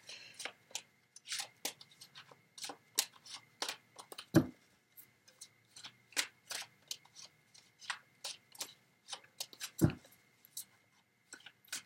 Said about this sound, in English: Let me get two more cards.